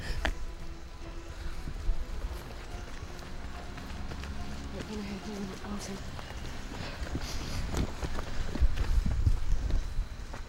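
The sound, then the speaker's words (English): Someone runs through bushes, with faint, quick footfalls and rustling brushes of foliage at a low level while people talk over them. “He's going through bushes now. He's cut through bushes and is running away from us, basically.”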